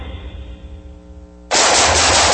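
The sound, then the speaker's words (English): Gunfire bursts in suddenly and loudly as rapid, continuous shooting after a quieter low droning hum, and the dense volley carries on to the end. “Ooh, nice shooting.”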